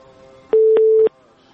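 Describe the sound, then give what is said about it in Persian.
After a dropped phone call, a steady electronic telephone line tone sounds for about half a second. It is clipped by short clicks at its start, middle and end and stands out clearly above a faint background hum. “بله تماس چون فکر میکنم قطع شد، تماس بعدی رو میگیریم ببینیم کدام عزیز است.”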